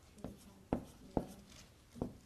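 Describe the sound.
Writing on a board during a Bible lesson: four separate scratchy marker or chalk strokes, each a short sharp burst that fades quickly, spaced irregularly with quiet pauses between them and no talking.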